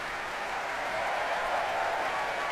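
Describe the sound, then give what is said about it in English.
Applause from a concert audience for youth choirs after a large orchestral and choral performance with organ, offstage brass bands and percussion. It forms a steady, dense wash of clapping that holds at an even level throughout, with no single claps standing out. “Martin Brabbins now bringing the youth choirs to their feet to whoops from the audience.”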